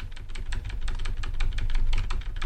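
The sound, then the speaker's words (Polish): Computer keyboard keys are pressed in a quick, uneven stream of many sharp clicks as the cursor moves down with Shift held to select several lines of text in a document. No one speaks. “Jadę w dół yy, kursorkiem, zaznaczając kilka linii.”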